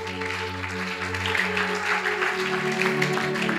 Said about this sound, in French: est-ce que nous pouvons acclamer pour jésus